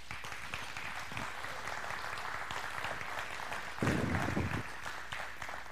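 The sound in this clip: Audience applause welcoming a speaker to the platform at a morning event: steady, dense clapping that carries on without a break for nearly six seconds.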